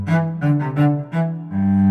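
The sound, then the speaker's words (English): A cello, a bowed string instrument, plays five sustained low notes in a row. Each tone is rich and resonant, with brief dips between notes, and the last note is held longest. “A cello is a string instrument, like a violin, and it sounds like this.”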